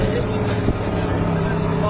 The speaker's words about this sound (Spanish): Este es el sonido de uno de los varios tanques que desfilan por esa región